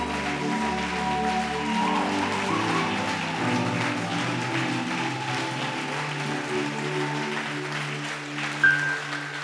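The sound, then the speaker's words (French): An audience applauds during a church worship service, a steady, dense wash of clapping that holds at an even level over sustained musical tones. “Est-ce que quelqu'un peut acclamer le Saint-Esprit?”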